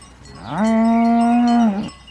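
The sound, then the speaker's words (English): A cow lets out a single long moo, rising into a steady, strongly voiced tone, holding for over a second and then dropping away, heard alone without talk. “this cow, it seems like it's mimicking me”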